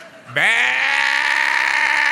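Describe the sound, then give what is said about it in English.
A human voice imitates lowing cattle with one loud, long, nasal "meh" that rises quickly in pitch at the start and then holds steady. “at this point where the cattle are low, you need to go, meh,”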